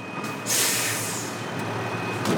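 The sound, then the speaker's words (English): A recycling truck arrives with a loud, broad air-brake hiss that bursts in after a moment and then holds steady over a low rumble. “Here comes the truck.”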